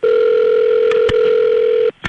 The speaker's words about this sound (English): a hilarious prank phone call.